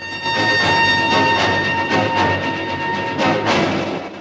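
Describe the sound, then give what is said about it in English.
A train moves along a snow-covered mountainside. It gives a steady rolling rumble with regular pulses, and thin sustained whining tones run above the wheel noise. “The train moves on along a snow-covered mountainside.”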